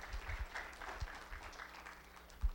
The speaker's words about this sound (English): Let's give him a round of applause as well.